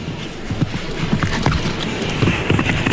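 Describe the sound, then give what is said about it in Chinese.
Horse hooves thudding during a show jumping round, many muffled, irregular hoofbeats over a steady wash of background noise. “完成这个3连跳之后呢，马儿有点累，腾空呢不太够。看这个转弯的衔接调整”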